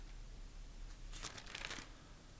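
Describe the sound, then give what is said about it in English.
Pages of a book are turned, giving a faint papery rustle with a short cluster of crinkling swishes in the middle of an otherwise quiet stretch. “I'm turning pages because I want to read a couple things before we close.”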